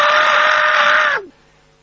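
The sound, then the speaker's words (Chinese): A storyteller's voice imitates the furious roar of a dying man struck by an arrow: one loud, sustained, raspy cry that holds steady, then drops in pitch and cuts off abruptly into silence. “他是中箭之后眼看着就要死亡之前的一声怒吼。陈正德这一声喊，白震吓了一大跳”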